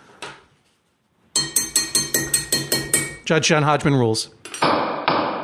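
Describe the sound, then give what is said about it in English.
A gavel strikes in a quick, evenly spaced series of sharp, loud wooden knocks, each ringing briefly. A voice then speaks over a closing musical flourish. “This is the sound of a gavel.”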